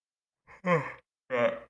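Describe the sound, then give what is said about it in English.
A tired person yawns in two breathy, voiced sighing bursts: a brief soft onset, then a longer, louder exhale, a short pause, and a second drawn-out sigh. “I'm sorry, y'all, for yawning to y'all.”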